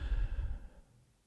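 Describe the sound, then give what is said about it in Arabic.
A soft, breathy exhale during a guided relaxation breathing exercise, a single airy sigh that fades away in about a second. “شهيق، احبس النفس وزفير.”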